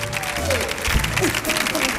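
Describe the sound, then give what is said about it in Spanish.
Studio audience applause at a television show, a dense wash of clapping that holds steady and fairly loud across the whole moment, with a voice speaking over it. “recibamos también con un fortísimo aplauso a David Hasselhoff”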